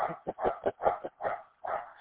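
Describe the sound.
A dog barks outdoors at someone walking by. The sharp, mid-pitched barks come in a rapid, uneven series of many, with a short gap before the last one, and no other sound is heard.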